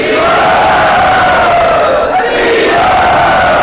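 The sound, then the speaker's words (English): An audience at a devotional gathering cheers and shouts loudly to welcome a guest, a dense, sustained roar of massed voices that stays at full volume throughout. “Let us very graciously and loudly welcome him to Sri Radha”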